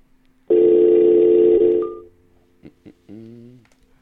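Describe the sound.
Telephone dial tone heard while calling someone back: a loud, steady, buzzing tone holds for about one and a half seconds and then fades out, followed by two short beeps and a final brief tone, with no voices.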